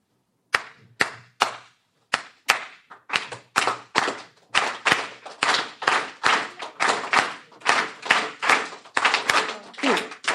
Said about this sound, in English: I don't know if you know anything about Cuba. It has this beautiful thing called clave. It sounds like this.